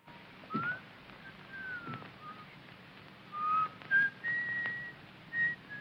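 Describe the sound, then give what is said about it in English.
A man whistles a tune as he walks in. It is a faint, scattered run of short, clear, high notes, with most of them clustered toward the end. “strides in whistling, unaware she's there”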